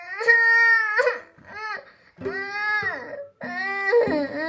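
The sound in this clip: A voice imitates a small boy crying, with four wailing, sobbing bursts separated by short gaps. The second burst is brief and softer.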